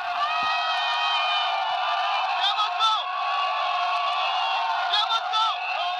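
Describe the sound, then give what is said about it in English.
A crowd of at least 700 mostly young people shouts while attacking government buildings and police stations in Ekok, a Cameroonian border town: a dense, loud, continuous roar of overlapping voices with rising whoops and yells. “That is the sound of at least 700 people, mostly the youth, shouting and attacking government buildings and police stations at the Cameroonian border town of Ekok.”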